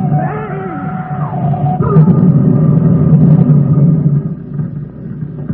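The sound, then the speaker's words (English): Drama sound effect of a car speeding and overtaking on a wet road: a loud, sustained engine rumble with a wavering tone that eases off toward the end. “Mark, please don't drive so fast. The limit's 50. The road's wet.”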